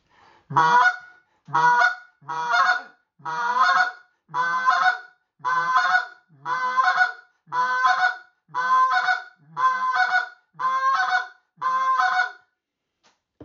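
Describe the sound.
A goose call blown in a double cluck pattern, demonstrated in a goose-calling lesson: a long steady series of evenly spaced, loud honking clucks, each short and sharp, repeated with a regular rhythm and no voices.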